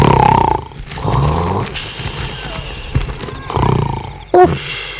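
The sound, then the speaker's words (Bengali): Loud snoring from a police constable asleep at a remote police outpost: rough, roaring, rasping breaths drawn out in a few long, heavy bursts separated by quieter stretches. “যে রেটে নাক ডাকছে, lungs দুটো না বেরিয়ে আসে।”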